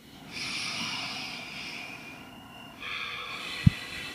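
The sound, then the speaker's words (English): People take a deep breath together, a long soft airy inhale followed after a short pause by a second hissing breath, faint and without talk. “so maybe we can take a deep breath together.”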